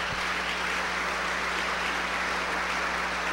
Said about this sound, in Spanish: Siéntate, un buen aplauso para este hombre.